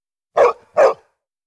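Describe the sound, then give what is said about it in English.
A dog barking: two short, punchy barks in quick succession, each loud and full, with silence before, between and after. “Bark. Dog.”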